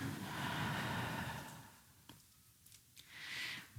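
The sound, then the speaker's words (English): A deep breath drawn in and let out, long soft airy sounds with a quieter stretch between them, heard alone without speech. “Deep breath in and let it out.”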